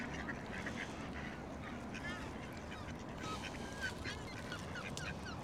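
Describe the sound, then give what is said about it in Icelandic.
Ducks quack in a series of faint, nasal calls over a steady noisy background, with several calls bunched toward the middle and end. “Ég kem hérna að horfa endurnar.”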